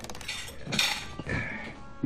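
Faint clinks and clatters of dishes and cutlery as a young man does the dishes after a meal, with a few scattered knocks over a soft background.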